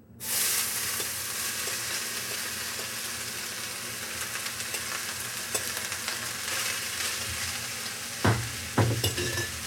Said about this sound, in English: I'm going to take our vegetables from that nice mixing bowl. I'm just going to add it into the skillet.